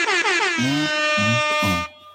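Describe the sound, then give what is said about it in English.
An air horn sound effect blares in one long, loud, brassy tone of about two seconds. It wavers in pitch at the start, then holds steady before cutting off. “Air horns. Where are my air horns?”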